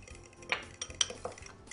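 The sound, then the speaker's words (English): A spoon clinks and scrapes against a bowl while ketchup seasoned with smoked paprika and chipotle peppers is stirred, giving a few faint, light taps at irregular intervals. “Give it a stir, blend it up nice.”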